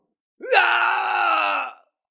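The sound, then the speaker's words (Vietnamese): A man's pained cry as he loses an arm in a fight: one sustained, strained vocal wail that rises sharply at the start, then holds loud and steady for over a second before cutting off. “Hắn gào thét”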